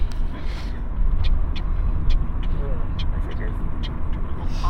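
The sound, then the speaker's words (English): A voice imitates a car's turn indicator with short, regular clicks repeated at an even pace. The clicks sit over the steady rumble of a car on the road. “Are you trying to impersonate my indicators? Yes.”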